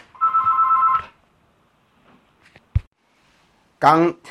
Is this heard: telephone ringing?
yes